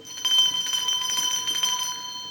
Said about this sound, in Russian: зазвенел колокольчик.